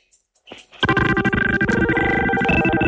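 Telephone line of a caller who put the call on hold: after a few soft clicks, a steady, tonal, music-like drone sets in with a faint pulsing rhythm at an even level.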